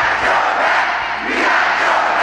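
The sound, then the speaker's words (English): About two thousand supporters cheer and shout at a raucous Biden rally in a packed school gym in Detroit, a dense, steady crowd roar that dips briefly near the middle before surging back. “2,000 supporters cheering President Biden in a packed school gym in the important battleground state, Michigan.”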